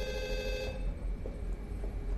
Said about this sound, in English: Phone, General.